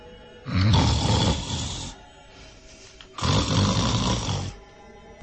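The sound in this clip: A man snores while asleep on a sheet spread over a cotton rug on the floor: two long, loud, rough snores with a quieter breathing pause between them.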